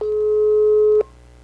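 A telephone line tone sounds while a call is placed to a listener for a radio prize contest. One steady, mid-pitched electronic tone holds for about a second and then cuts off abruptly.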